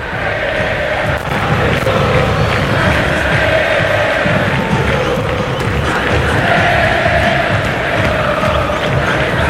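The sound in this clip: Stadium crowd ambience before a football match: a loud, continuous roar of many voices with sustained chant-like tones rising out of the din, steady for the whole stretch.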